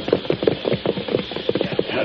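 Horse hooves clip-clop in a quick, uneven run of many sharp beats as a rider reins up. No voices are heard.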